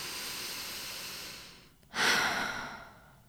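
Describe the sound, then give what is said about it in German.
A deep breath drawn in through the nose while smelling a flower: a soft, steady hiss gives way to a brief dip, then one strong, rushing inhale that slowly fades. “Wir suchen uns eine Blume aus, die uns gefällt, und schnuppern an ihr. Atme tief ein”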